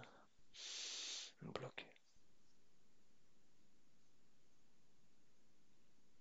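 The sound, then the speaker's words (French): Breathing during a guided breathing exercise: a long drawn breath, then a few short forceful puffs, followed by a steady faint hiss. “Et on expire. On inspire.”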